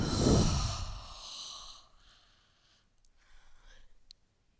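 A long, forceful exhale out through the mouth during a yoga sequence, a loud breathy rush that fades over about two seconds, followed by softer, quieter breathing.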